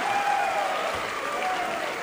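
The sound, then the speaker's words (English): Applause from the audience at a live bluegrass band show, a steady, dense wash of clapping that holds at an even level for about two seconds. “Thank you for the nice round of applause. I really appreciate that.”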